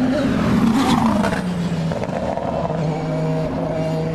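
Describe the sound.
Race cars pass with bursts of flame from their exhausts, a loud, continuous engine roar with one engine's pitch dropping as it goes by, heard without talk.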